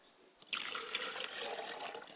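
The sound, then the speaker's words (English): Liquid is poured as a libation during a spoken ritual. After a brief pause, a steady splashing stream begins and runs on unbroken, moderately loud. “I pour libations to the east, and I say Ashe. I pour libations to the West, and I say ashe.”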